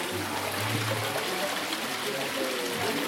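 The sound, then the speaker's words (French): Water flows steadily at a village wash house in Gillaucourt, a continuous trickling and burbling wash at even loudness from start to end. “On entend l'eau.”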